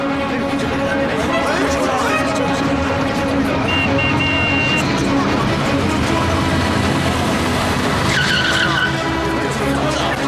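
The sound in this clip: Tyres skid as a stolen car is driven off, a loud, sustained screech blended with engine roar that holds at a constant level throughout.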